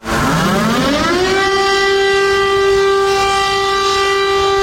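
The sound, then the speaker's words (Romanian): A civil defense siren sounds during a public warning test in Bucharest. It winds upward in pitch over the first second, then holds a loud, steady wailing tone rich in harmonics. “În București, sirenele au sunat astăzi începând cu ora 10, Anca Grădinaru a luat parte la exercițiu.”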